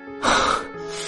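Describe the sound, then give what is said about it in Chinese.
A man takes one deep breath, a loud, breathy rush of air that swells quickly, holds briefly and then fades. “他站在窗前对着夜色又做了一个深呼吸”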